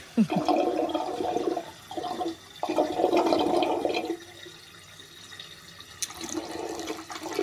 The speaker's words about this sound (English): This is a recording of what's the name of the canal? It's the Chesterfield Canal. This is it being drained in 1978.